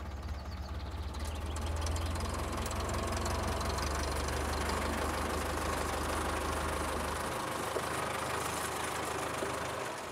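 A tractor engine runs with a steady, loud low rumble and a knocking, idling rhythm throughout. The deep drone shifts lower near the end.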